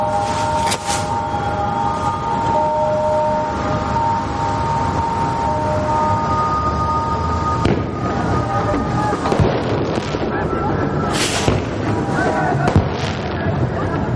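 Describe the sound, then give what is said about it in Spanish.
Fireworks set off at a family wedding celebration at a grandmother's house, a dense, continuous crackle and popping with a few sharper bursts, loud throughout over a steady, wavering high drone. “Mientras en casa de la abuela, celebran la boda del padre lanzando fuegos artificiales.”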